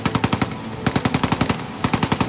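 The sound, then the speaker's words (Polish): A Soviet machine gun firing from deep in the ruins of Stalingrad: three loud bursts of rapid, evenly spaced shots separated by brief pauses. “Wtedy też odezwał się sowiecki karabin maszynowy zakopany gdzieś głęboko w stalingradzkich ruinach.”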